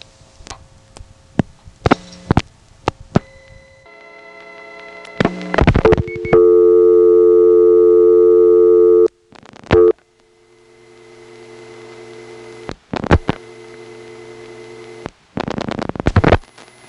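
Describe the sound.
Tones and clicks on a 1970s telephone line that never hung up: sharp clicks and short bursts, a loud steady tone held for a few seconds, then quieter hum and further clicking bursts.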